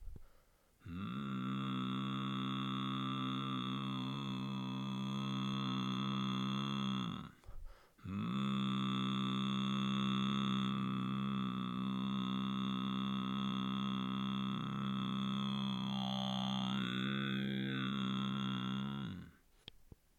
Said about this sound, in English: To create this sound, we're going to keep the lips closed, not allowing any air to pass through the mouth. We want the vibration to start in the nasal cavities.